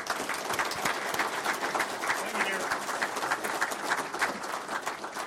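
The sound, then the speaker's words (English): Audience applause welcomes a speaker at a morning gathering in Richland Hills, a dense, steady wash of many hands clapping that holds at an even loudness for the whole stretch. “Would you put your hands together and welcome Tom Nelson here this morning?”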